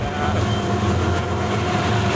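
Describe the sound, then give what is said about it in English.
A passing train makes a continuous, fairly loud low rumble that holds steady from start to finish. “Here comes another train.”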